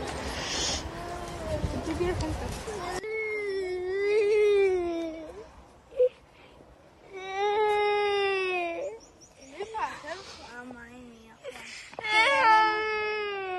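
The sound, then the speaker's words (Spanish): A small boy crying, distraught over the damaged state of his school in Valencia: high, wavering wails and sobs in several long bursts with brief gaps. A noisy, rumbling stretch comes before the first cry. “Hasta no llores, bebé, no llores. Me da mucha pena. El vídeo se ha hecho viral.”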